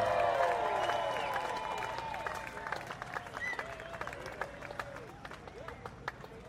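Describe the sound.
Audience applause welcoming a band at Delfest: dense, steady clapping mixed with scattered whoops and shouts, a voice rising over it at the start, and the crowd noise fading slowly and staying faint overall.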